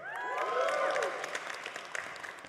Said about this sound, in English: Yeah, you can clap. Come on.